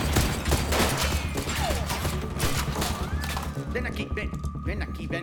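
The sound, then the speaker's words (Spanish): Gunshots from a gun fired at bottle targets: many loud, overlapping bangs in a dense, unbroken barrage with voices in the mix. “Ahora voy a dispararle a la verde. Otra vez apuntas y ¡bam!”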